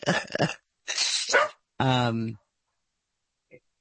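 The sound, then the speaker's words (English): A dog barks and yowls in a few loud bursts, the last one drawn out and tonal, followed after a pause by one faint, short sound. “the dog even agrees with me”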